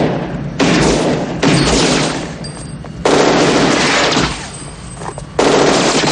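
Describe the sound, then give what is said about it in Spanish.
Machine gun fire during a shootout in a 1990 action police film: sustained, loud, dense rattling bursts that run in several long stretches with brief breaks between them, and no talk. “se defiende con una ametralladora. Ambos bandos se esconden.”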